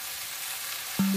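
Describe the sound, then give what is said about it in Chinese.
Sizzling of chicken pieces stir-frying in a pan until golden, before being braised with black tea. A steady, fairly faint hiss holds throughout, and a constant low tone joins near the end. “她选用的是姚家大叶红茶，待鸡肉炒到表面金黄，再加入红茶一起慢炖。”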